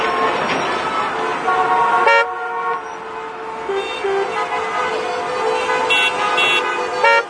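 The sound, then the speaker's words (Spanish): Car horns honk in road traffic with loud, sustained blaring tones that overlap and shift pitch, continuing without a break over a constant background of vehicle noise. “Métete la bocina en el ojete.”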